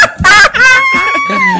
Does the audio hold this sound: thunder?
no